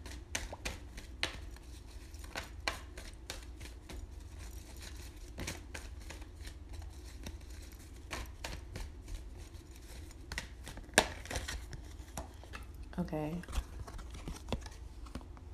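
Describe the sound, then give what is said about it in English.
Cards being shuffled and one pulled from a deck: a long run of light, irregular clicks and soft riffles, each snap quiet and brief, with one sharper tick near the end. “I'm gonna try to pull another card for the thing.”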